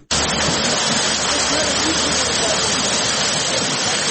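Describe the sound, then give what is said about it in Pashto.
Continuous rushing and splashing water as an arhat water wheel lifts water from a stream fed by a canal from the Kunar river, in Kandai village, Nurgal district. The wash stays loud and even without pause. “د نورګل ولسوالۍ اړوند د کانډۍ کلي کې د ارهټ په وسیله له ویلې اوبه پورته کیږي”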